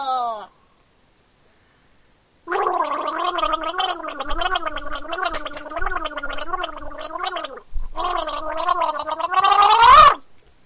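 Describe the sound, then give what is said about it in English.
A person gargles in two long, bubbling, voiced bursts, the first lasting several seconds and the second slightly shorter after a brief pause. A short vocal sound comes before them, and the gargling rises louder toward the end. “I'm gonna do some gargling. Gargling. Gargling. Gargle!”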